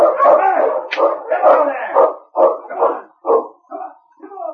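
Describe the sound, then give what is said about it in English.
Malamute sled dogs barking and yelping in a series of loud, uneven bursts, some drawn out into short howling cries, with the calls becoming shorter and more clipped toward the end. “I'll handle the dogs for a couple of miles. Come on, you Malamute!”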